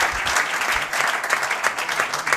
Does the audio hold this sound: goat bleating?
no